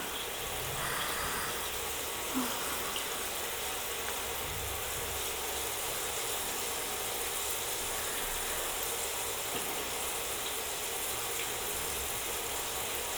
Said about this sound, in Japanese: 水はシャワー、マスターの肩にかけるから。